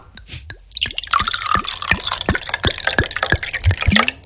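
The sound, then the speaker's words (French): Liquid poured from a bottle about a third full, producing many quick gurgling drips and plops in an uneven, bubbling rhythm that grows busier after a quieter start. “Allez, mon tonton, débouche-moi cette bouteille au tiers pleine.”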